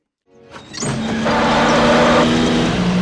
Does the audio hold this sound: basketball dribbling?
no